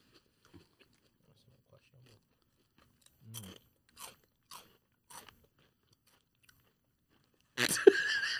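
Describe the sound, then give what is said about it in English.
Crunching of salted egg flavored mini rice crackers being bitten and chewed: four short, crisp crunches spaced out in near silence, followed by a voice. “Let me taste this. All right, these are called salted egg flavored mini rice crackers.”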